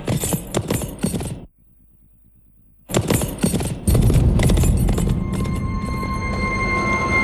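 A horse's hooves clip-clop as it returns: a quick run of sharp hoofbeats, a short silence, then more hoofbeats before a steady, continuous background sound takes over.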